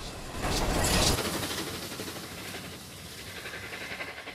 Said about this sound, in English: A front-on view of the locomotive exiting the tunnel in great billowing clouds of white steam and smoke.